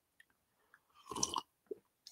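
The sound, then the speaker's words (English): Slurping coffee: one faint, noisy slurp of under half a second, set among a few small mouth clicks and sips in otherwise quiet surroundings. “Sorry about the slurping on the coffee.”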